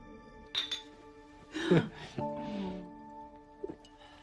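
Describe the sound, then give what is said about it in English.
Glass beer bottles clink together as a couple toast while sitting on floor cushions at night: a few light, bright clinks spread across the moment, with a low murmuring sound between them. “At night, sitting on cushions on the floor, the couple clink beer bottles.”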